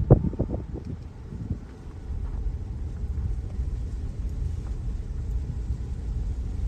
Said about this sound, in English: You can hear the wind. You can hear the leaves falling from the wind.